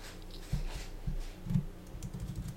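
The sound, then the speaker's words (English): Typing text into a Skype chat on a computer keyboard produces faint, quick keystrokes in an irregular patter with a few slightly heavier taps. “It should be below the three people you see in Skype. There should be a spot where you can type text.”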